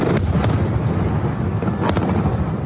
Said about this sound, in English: Beneath their gaze, black smoke rises from airstrikes that are falling across Damascus.